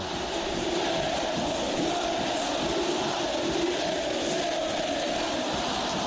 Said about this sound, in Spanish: Se va a terminar el partido. River con lo justo. Va llegando a la final. Escuchen a la gente de River.